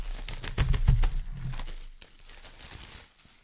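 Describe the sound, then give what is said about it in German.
Thick shrink-wrapped plastic foil packaging being torn open, with a loud burst of crinkling and crackling in the first half that settles into softer, scattered rustling. “Also ist nochmal hier dick eingeschweißt in der Folie. Mache ich mal kurz auf.”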